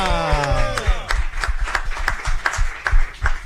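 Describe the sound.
Studio applause in a radio studio welcomes a new presenter: a few people clap in a steady, fairly quick rhythm, with the claps separate and distinct.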